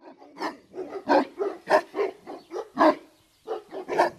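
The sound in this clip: A guard dog lying in the shade of a household yard suddenly starts barking: many loud, sharp barks in a quick, uneven series, with a brief pause before a final few.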